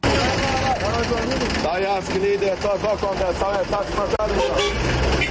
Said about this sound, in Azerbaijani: Bu səslər müxtəlif ünvanlara tələsən sərnişinləri mikroavtobuslara çağırır.